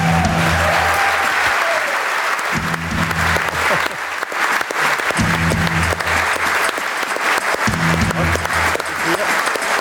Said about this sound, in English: Could you please put your hands together for Paul Galvin and Cian Sullivan?